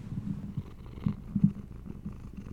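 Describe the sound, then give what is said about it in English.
A domestic cat purrs right up against the microphone, a soft, low, continuous rumble with gentle pulsing swells and a few slightly louder bumps midway, with no voices over it. “a purring cat in the background”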